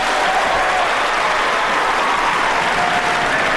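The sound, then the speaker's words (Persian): An audience claps hard in loud, dense applause that stays steady and unbroken throughout. “چقدر شدید دست میزن.”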